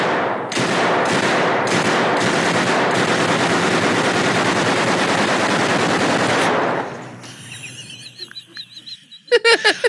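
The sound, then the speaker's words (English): Automatic gunfire at a shooting range, aimed at a painting: one loud, sustained rattling burst runs for about six seconds, then cuts off and fades, leaving quieter clatter before a few sharp bangs near the end. “So I just watched my burst. He's shooting at a painting.”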